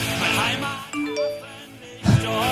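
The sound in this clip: A message notification chime goes off during a live show, a few short bright tonal dings heard between and under talking voices.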